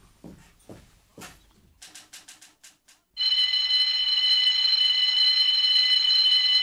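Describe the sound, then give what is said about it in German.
A burglar alarm rings at the scene of a break-in: a loud, steady, continuous electronic ringing tone starts abruptly about three seconds in, after a few faint knocks and a run of short, sharp bursts. “Verdammte Alarmanlage. Hoffentlich kommt bald der Besitzer, um das Ding abzustellen.”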